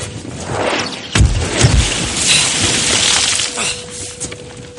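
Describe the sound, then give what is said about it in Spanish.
Cannon fire from the warship Acheron at night at sea: a sharp, loud blast followed by a few deep booming thuds, over a continuous rumbling wash of noise. “Mientras la Acheron dispara sus cañones, Calami despliega la vela del señuelo y desciende por su aparejo.”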